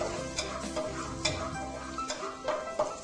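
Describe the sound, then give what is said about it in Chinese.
Garlic sizzles faintly while being stir-fried in a pan, with a soft continuous crackle and several light scraping clinks of a spatula against the pan. “好，这个蒜一定要爆香哈，但是呢注意不要让它烧焦，因为烧焦就会苦哈。”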